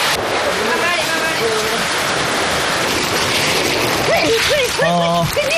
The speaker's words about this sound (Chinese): 下雨了，别说。 下雨啊！